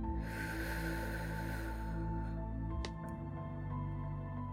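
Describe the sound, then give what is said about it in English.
A deep breath in during a guided breathing exercise comes as a soft, airy inhale over a steady low droning tone, fading after a second or so while the drone continues. “Now, let's start by taking a deep, deep breath in.”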